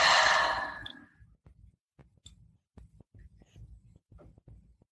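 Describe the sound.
A deep exhale during a guided breathing exercise: one long, breathy sigh that starts loud and fades away within about a second, followed by faint soft taps and rustles.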